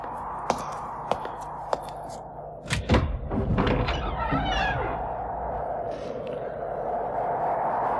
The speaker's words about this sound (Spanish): Abrí de par en par la puerta.